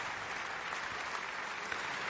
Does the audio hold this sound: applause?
yes